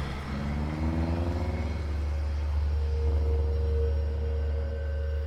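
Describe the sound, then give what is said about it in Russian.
A jeep's engine accelerates as it pulls out of snow onto a road at night, one headlight out and its hood partly open. A heavy low rumble carries rising engine tones, with no voices. “Машина выбирается на дорогу, ускоряется. У нее не горит одна фара, приоткрыт капот. Это джип «Багра». Машина выезжает за ворота и скрывается в темноте.”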